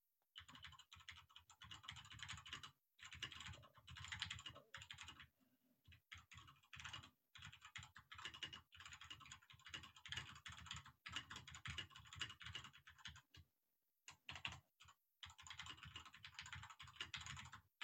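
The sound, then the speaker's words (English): Quiet typing on a computer keyboard: rapid runs of small clicking keystrokes arrive in bursts of a second or two, separated by short pauses, with no talk. “I'll type the question in chat and open up our rooms.”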